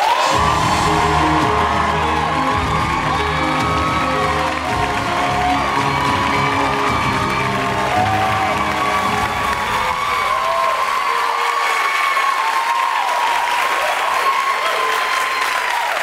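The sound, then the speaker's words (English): A studio audience at The Daily Show, a television talk show, cheers and applauds loudly, with dense continuous clapping, whoops and shouts sustained at full level throughout. “So, ladies and gentlemen, please welcome to The Daily Show, Greta Thunberg.”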